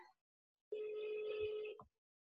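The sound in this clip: Telephone ringback tone on an outgoing call: one steady, level-pitched tone lasting about a second, fairly quiet, with no talk over it.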